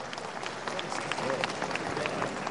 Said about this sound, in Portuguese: e associa os aplausos à construtiva intervenção de Vossa Excelência.